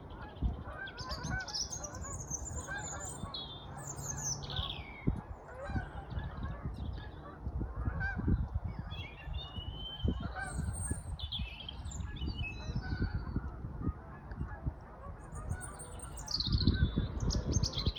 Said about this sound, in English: So there's a robin there, but also some geese flying over.